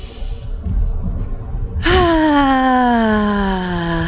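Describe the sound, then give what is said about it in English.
A large voiced out-breath during a guided breathing exercise: a breathy rush of air gives way to a loud, sustained sighing tone whose pitch falls slowly as it fades. “On the next two breaths, please make an out breath. Large capacity out breath sound.”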